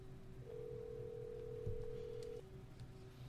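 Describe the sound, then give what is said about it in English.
A phone call rings out as one steady, faint ring tone lasting about two seconds over low background hum, with no voices. “So let me call Valinda real quick. See what she up to.”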